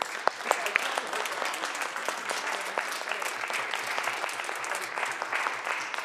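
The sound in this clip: Senate members on the California State Senate floor applaud visiting guests on a legislative tour with dense, steady clapping that stays even and fairly loud for about six seconds.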